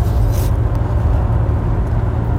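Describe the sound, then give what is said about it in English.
A car being driven gives a steady, heavy low rumble of engine and road noise throughout, with no voices. “I am driving.”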